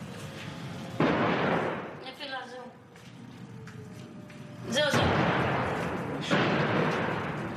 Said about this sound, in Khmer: នេះជាពេលល្ងាចធម្មតាមួយនៅក្រុងស៊ីដេរ៉តដែលស្ថិតនៅចម្ងាយ3គីឡូម៉ែត្រពីតំបន់កាហ្សារ៉ុកកែតពូហាម៉ាស់នៅតែបន្តបាញ់លើក្រុងនេះ